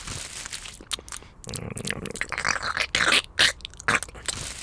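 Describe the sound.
Someone crunching and chewing screws as if they were food, a run of irregular, loud crunches, bites and gritty scrapes that grow sharper midway, with no voices.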